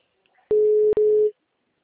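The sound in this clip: A telephone line tone sounds while a call is placed, a single steady mid-pitched beep lasting under a second with a tiny break in the middle, heard alone.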